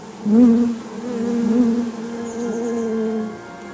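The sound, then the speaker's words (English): Honeybees buzzing inside a hive during their circling dance: a continuous low droning hum that swells and wavers slightly in pitch, steady and fairly loud from start to finish. “You can hear the dance, it happens like in a little circle, and they you'll hear bzzz, bzzz, bzzz, bzzz.”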